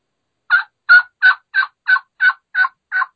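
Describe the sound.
Turkey yelps made on a split V diaphragm mouth call, played as front end yelping in imitation of a hen: eight crisp, evenly spaced yelps in a steady rhythm, loud and alone with no talking.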